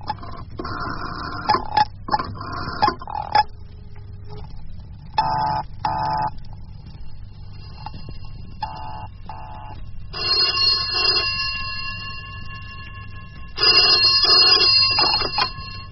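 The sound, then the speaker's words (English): A telephone is dialled and rings: a stretch of short, broken tones and clicks gives way to two longer bursts of steady ringing tone near the end. “Now, dial Marcia's number. Here it is. Metropole 3362.”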